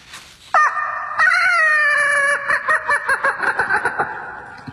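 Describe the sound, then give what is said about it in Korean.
A voice imitates a rooster crowing loudly at dawn, letting out one long, drawn-out warbling call that breaks into a run of quick pulsing notes at the end. “그것도 그냥 닭이 아니었습니다. 마치 마이크를 잡은 것처럼 쩌렁쩌렁 울리는 닭.”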